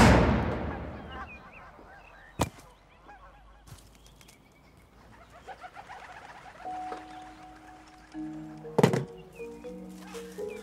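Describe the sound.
A gunshot: one loud, sharp blast with a decaying tail at the start, followed by scattered thuds and later a few honking tones.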